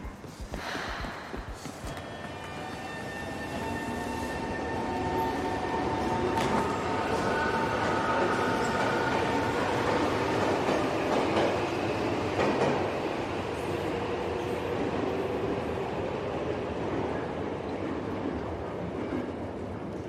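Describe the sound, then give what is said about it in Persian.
The last train of the night pulls out of a station, its rumble building over the first few seconds into a loud, steady roar with rattling wheels and thin tonal squeals drifting above. “این آخرین قطار امشب، لطفاً عجله کنید.”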